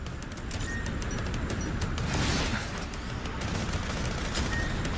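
Dense, continuous gunfire from a video game as the player strafes from a sand vehicle, circling an alligator. The shots blur into a loud, unbroken rattling roar without clear gaps.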